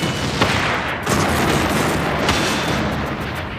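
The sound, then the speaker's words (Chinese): Field guns firing at an enemy tank make a dense, continuous roar of booming gunfire. The blasts run together into one sustained, loud barrage rather than separate shots. “对面坦克窜起一道火光，我们的两门野战炮只瞄准那个小方块射击”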